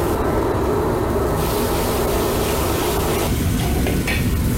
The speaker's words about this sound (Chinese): 然后加入适量的藤椒油，最后加入切好的小葱下锅炒至断生即可，